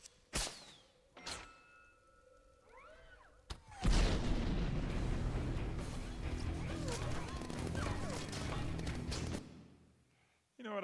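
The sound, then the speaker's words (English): Gunfire in a film action scene: a few sharp, isolated bangs and thuds at first, then a long, loud, dense barrage of crashing shots and clatter that cuts off near the end. “They shoot at him, and he's like, did you just shoot at me? How dare you? Or I'll just take this. He turns and fires at them.”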